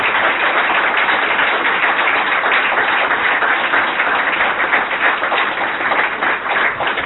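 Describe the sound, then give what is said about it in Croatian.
Dense audience applause for a team from an association after a Einstein quotation, a steady, even wash of clapping that stays loud and unbroken for the whole stretch with no clear voices on top. “molim vas aplauz za ovaj divni tim”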